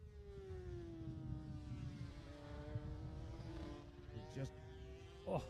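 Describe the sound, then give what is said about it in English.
A 250cc racing motorcycle passes during a race, its faint engine note sliding down in pitch, then climbing again as the throttle opens, with brief bursts of noise near the end. “Here he comes. Back past us. Listen to the 250 going past”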